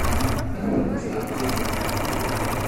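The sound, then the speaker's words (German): A sewing machine whirs and rattles steadily as it stitches four cloth squares together into a picnic blanket, running loud and continuous without a break. “Jede Frau und jeder Mann hier an der Maschine näht 4 Tücher aneinander.”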